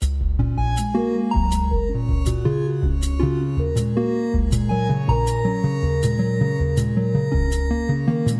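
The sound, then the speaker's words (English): Musical notes made from the RNA genetic sequence of the SARS-CoV-2 virus play as a steady melodic line of synthesized tones over low sustained notes, punctuated by regular sharp ticks. “It's a sonification of the SARS-CoV-2 virus, a translation of the RNA that makes up the genetic sequence of the virus into musical notes.”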